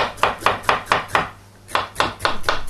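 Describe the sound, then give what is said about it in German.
A kitchen knife slices onions into thin strips on a board. Five even, crisp strokes come first, then a short pause, then several more quick cuts. “So, wir schneiden die jetzt in dünne Streifen.”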